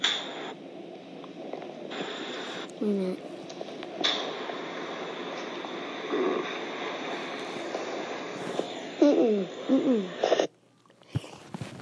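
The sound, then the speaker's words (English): A person groaning in their sleep: faint, drawn-out voiced moans over a steady background hiss, one brief moan early on and a louder, wavering cluster near the end. “Another snap. And then I groan in my sleep.”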